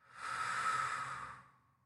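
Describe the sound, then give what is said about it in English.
One soft breath taken during a guided breathing exercise, a gentle airy hiss that swells and then fades away, quiet and alone. “Keep doing, and I will do it with you. Breathe in and breathe out.”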